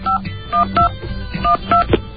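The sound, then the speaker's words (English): Touch-tone telephone keypad beeps as someone dials information. Several short, dual-pitched tones sound in quick, uneven succession, loud and clear with no voices over them. “I'm going to call information right here. Yeah, dial tone.”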